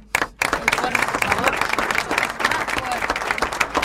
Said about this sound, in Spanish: Merecidísimo aplauso.